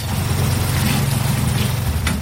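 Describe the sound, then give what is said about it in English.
The engine of a water tanker pumping water into a tank outside an apartment in a Nigerian town makes a steady, low, rumbling drone with a busy hiss above it, unchanging throughout. “Back in Oderemo town, a water tanker pumps water into a tank outside Mrs. Beckley's apartment.”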